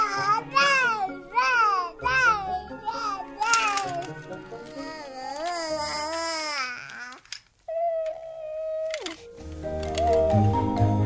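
Baby babbling: a run of high, wavering infant vocal sounds that slide up and down in pitch, fairly loud and close together. A steady held tone follows, and then more mixed sound.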